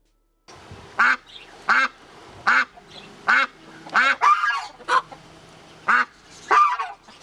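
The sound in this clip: Duck quacking as a sound effect: a series of loud, nasal quacks at a fairly even rhythm, with a couple of calls running close together in the middle and faint low honking between them.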